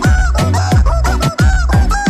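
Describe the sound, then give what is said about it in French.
A squeezed yellow and red plastic toy chicken squeaking a tune, with many loud, honking squawks in a steady rhythm, their pitch shifting from note to note and climbing high on some. “Oui, c'est joué, vous savez qu'on presse pour qu'il couine. Dans la vidéo, on ne voit pas la main de son propriétaire, mais simplement ce bout de plastique jaune et rouge qui s'agite devant un micro.”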